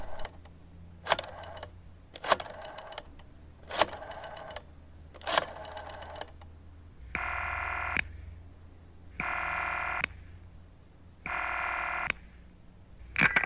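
Telephone dialing: a few crisp dialing beeps come first, then three long, evenly spaced buzzing ring tones with pauses between them, all fairly faint against a steady low hum.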